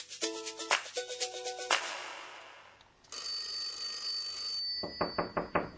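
Telephone ringing in bursts of trilling rings, loud and alone, with a quicker run of short ring pulses near the end.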